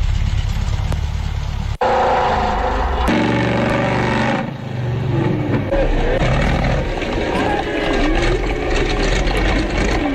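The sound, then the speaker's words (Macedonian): Loud, continuous engine roar of a monster truck, a heavy low rumble with a shifting tone and one brief dropout near the start. “Monster Truck, знаеш, они огромните камиони со гигантски тркала.”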